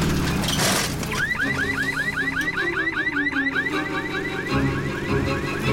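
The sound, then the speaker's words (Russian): A police car's alarm goes off in many rapid, loud, repeating electronic chirps with a warbling rhythm that continues without a break over a dense layer of background noise. “У полицейской машины срабатывает сигнализация.”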